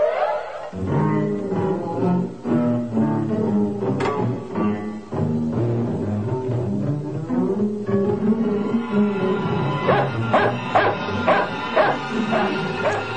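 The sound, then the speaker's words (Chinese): A dog barks repeatedly, mixing deep woofs with high yips and whimpering notes. The sharp barks come in quick, irregular bursts throughout, loud and steady, with a cluster of rapid yaps near the end. “唔好吠啦，我系你个新主人嚟噶嘛。仲吠？”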